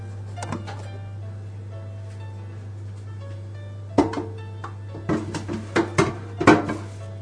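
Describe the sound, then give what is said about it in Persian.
A frying pan is picked up in a kitchen. After a quiet stretch over a constant low hum, several sharp metallic clanks and knocks follow in quick succession. “خب یه مایتابه برمیدارم که من قصد دارم مواد رو توش تفت بدم.”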